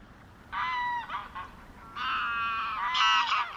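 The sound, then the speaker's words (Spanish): Geese honk in the wetland of a national park in southern Spain. A few loud bursts of nasal, harmonic honking calls come in separate groups, with only faint background between them. “hemos viajado ahora hacia el sur y estamos escuchando los sonidos del Parque Nacional de Doñana.”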